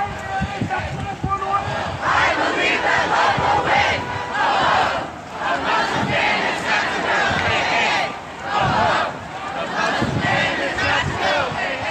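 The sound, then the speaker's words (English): A couple hundred protesters march near the Capitol against a presidential travel ban. Their loud crowd chanting comes in repeated rhythmic bursts, with brief dips between phrases. “near the Capitol, a couple hundred people marched to denounce President Trump's recent executive order banning travel from selected Middle Eastern countries.”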